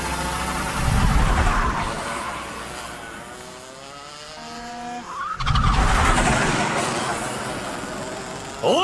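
A racing kart engine during a race: a loud, buzzing roar that drops briefly and then climbs steadily in pitch as it accelerates, sustained for the whole stretch.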